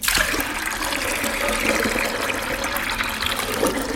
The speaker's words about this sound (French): Vous avez rincé le beurre plusieurs fois à l'eau claire